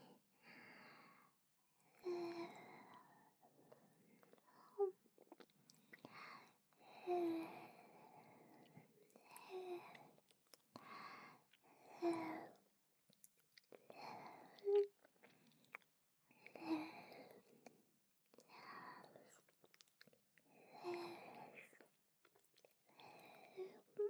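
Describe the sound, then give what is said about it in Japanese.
Gentle wet licking, moving from bottom to top: many soft, moist smacking bursts that repeat every two to three seconds, quiet and close, with faint breathy sounds between them. “レロレロって優しく舐めさせていただきます。下から上に、”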